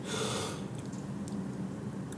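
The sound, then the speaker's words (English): A slow, deep breath during a guided meditation exercise: a soft, airy rush of air, faint and with no voice over it. “Gently close your eyes and take a deep, slow breath in”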